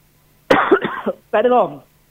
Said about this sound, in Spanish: Perdón las toses, pero me están acompañando últimamente todo el tiempo.